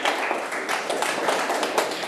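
Classmates clap for a student who answered a fractions question correctly in a Thai primary mathematics lesson. The clapping is dense and steady for about two seconds, with no voices standing out.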